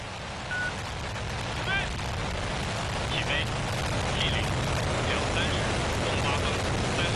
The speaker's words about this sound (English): The Shenzhou 23 spacecraft has successfully blasted off, opening yet another chapter in the country's space program.